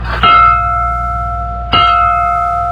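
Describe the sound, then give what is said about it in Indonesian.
A large bell struck as a signal for war rings out loudly twice, each clang followed by a long, sustained metallic tone that slowly fades. “Tabu lonceng batur tangara perang geus cukup setengah lima tepat. Hei, tabah, tilu kali.”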